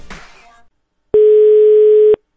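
A telephone dial tone while placing a call: a single steady, mid-pitched tone lasting about one second, loud and unbroken, coming after a brief burst of softer noise and a short silence.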